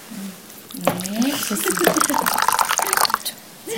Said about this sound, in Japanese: はい、これからお湯が注がれるそうです。水の音がうまく取れればいいんですが、はい、2杯分のお湯を入れます。